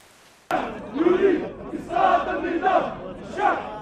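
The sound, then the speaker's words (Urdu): Protest crowd of about 6,000 Algerian demonstrators chanting slogans in front of Place de la République in Paris. Loud chant phrases erupt abruptly and rise and fall in several rhythmic swells of many voices. “Paris میں اتوار کو palace de la republic کے سامنے لگ بھگ 6,000 افراد جمع ہوئے اور انہوں نے نعرے لگائے۔”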